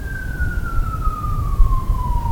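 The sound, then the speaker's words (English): An ambulance siren passes in a single steady wail that glides gradually downward in pitch, sounding over a constant low rumble. “Just as that ambulance right now is being useful, it's been commissioned to go somewhere to perform a service. It's carrying somebody there.”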